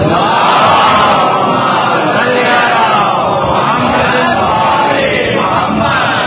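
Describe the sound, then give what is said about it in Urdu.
A crowd at a religious gathering shouts a slogan in unison on cue. The massed voices form a loud, continuous roar that holds steady for about six seconds. “ایک مرتبہ نعرہ سلام”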